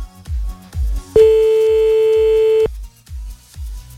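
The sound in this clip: One long telephone ring tone, a steady single pitch, sounds as a prank call is dialed on a radio show. It sits between low, rhythmic thumping pulses.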